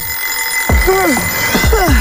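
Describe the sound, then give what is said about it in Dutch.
An alarm clock rings with a steady, unbroken high tone that runs throughout, while swooping, whistle-like sounds and soft low thumps come and go over it. “Ja, de wekker kan vreed wezen.”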